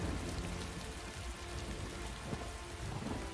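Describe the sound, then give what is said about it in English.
Rain drizzles steadily on a rooftop, pattering onto a leathery bodysuit: a dense, even hiss of drops with a low rumbling undertone, continuous and unbroken throughout. “Rain drizzles on his leathery bodysuit.”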